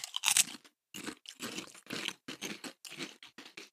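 Crunching of a bacon-flavoured snack being chewed, heard as many crisp, bright bites and grinding chews in quick irregular bursts with short pauses between, fairly close and without talk.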